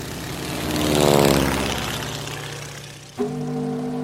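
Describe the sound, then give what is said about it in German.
Propeller airplane with an open cockpit, flying over Morocco: a droning engine with a steady buzzing tone that swells to a peak, eases off, then abruptly shifts to a steadier, higher hum near the end. “Auch wenn es in Marokko heiß ist, hoch oben im offenen Cockpit eines Flugzeugs ist es kalt und ungemütlich.”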